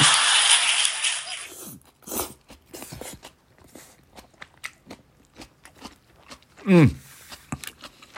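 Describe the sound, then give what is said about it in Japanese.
Eating noodle soup with Chinese cabbage and bean sprouts: a hissing wash at first, then scattered irregular crunches, bites and clicks, with a short voiced hum near the end. “今白菜ともやしをちょっと入れて食べてみようと思うんですけど、まあ全部は入れないんですけど、溢れちゃうんでね。”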